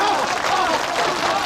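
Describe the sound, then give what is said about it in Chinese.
Applause welcoming a candidate onto the stage to give a village election speech, a dense burst of clapping from the crowd with voices mixed in, loud and steady throughout. “那么接下来，请候选人米良上台演讲，大家掌声欢迎。”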